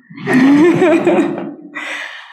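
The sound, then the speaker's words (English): A deep, audible breath is drawn in and then released: a long, sigh-like inhale is followed by a shorter, softer exhale, heard clearly and alone without speech. “I'm going to ask you to join me in taking a deep breath in and to breathe out.”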